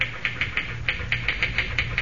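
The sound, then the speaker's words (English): A typewriter being pounded by a fast typist in a hotel room, a steady run of many sharp, evenly spaced key strikes over a low, constant hum. “Boy, you sure can pound that machine. Think I'll ever be able to type like that?”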